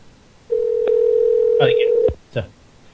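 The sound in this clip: A telephone call tone sounds as a single steady, mid-pitched beep lasting about one and a half seconds. It ends with a click, and brief talk overlaps its end.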